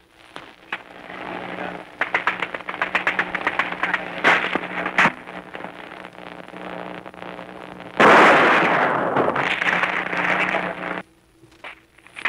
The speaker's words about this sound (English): Artillery has been placed there on, and we're shooting at places that need shooting at on this island.